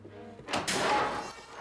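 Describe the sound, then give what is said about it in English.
An apartment door bangs open with a single sharp, broad thud that trails into a rushing, scraping wash of noise. It is fairly faint. “The door to her apartment bangs open.”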